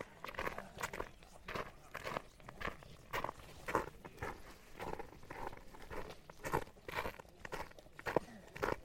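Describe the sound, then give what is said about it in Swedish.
Footsteps walk off a busy path into a forest, a long run of steady, soft crunching steps at an even walking pace that stays fairly quiet throughout. “Jag ska manövrera igenom här. Jag viker av och går in i skogen här.”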